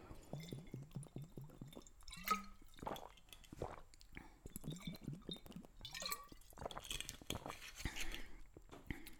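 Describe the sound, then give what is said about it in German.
A person takes a drink to ease a dry mouth, with a few runs of quick, soft gulps and wet swallowing sounds. These come in short clusters separated by brief pauses and are fairly faint. “Sorry, ich muss gerade kurz wieder was trinken, mein Mund wird trocken.”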